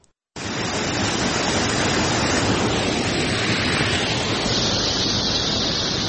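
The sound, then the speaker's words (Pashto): Water rushes steadily at the Mazar Baba spring in Chora district, Uruzgan, a cold, clear spring among green gardens; a loud, dense, even roar starts abruptly and holds without pause. “د روزګان ولایت په چوری ولسوالۍ کې د مزار بابا په نوم مشهور چینه د ښکلا او طبیعي منظرې له مخې د دې سیمې د خلکو او د ګاونډیو ولایتونو د سایلانیانو لپاره یو زړه راښکونکې تفریحي ساحه ده.”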